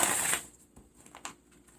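Tarot cards being shuffled and drawn: a brief rustling burst, then a few soft, faint card snaps and taps.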